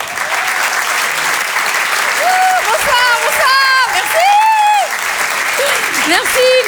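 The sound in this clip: Audience applause in a comedy club as a comedian is welcomed onstage: dense, sustained clapping fills the whole stretch, with shouts and whoops rising over it through the middle.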